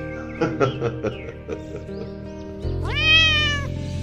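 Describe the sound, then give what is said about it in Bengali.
Soft meowing from a cat in a living room: a few short, chirpy mews, then a longer, clear meow that rises and holds before fading. Faint and alone, with no voices. “একটা মৃদু mu ডাক শুনে বুঝতে পারলাম বৈঠকখানায় ইতিমধ্যে নীরবে তার চিরবিশ্বস্ত সঙ্গীর প্রত্যাবর্তন ঘটেছে”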